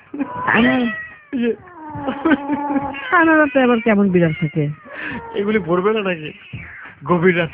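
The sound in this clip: A cat meows loudly and repeatedly in long, wavering, drawn-out calls, some stretching into strained caterwauls, with only brief gaps between them.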